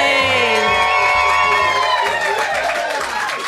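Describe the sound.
Live audience cheering at the Phoenix Arts Club during a Valentine's Day show, a loud, sustained roar of whoops and shouting voices with scattered clapping underneath.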